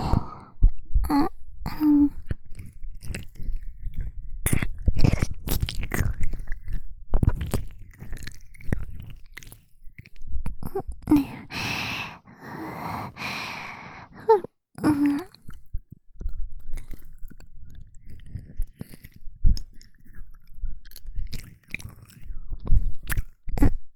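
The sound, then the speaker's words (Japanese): Wet ear-licking mouth sounds in an intimate ASMR-style setting, with slurps, smacks and soft squelches coming in irregular bursts and brief pauses, loud and close, with no talking. “それではまずは、耳を舐めさせていただきます。”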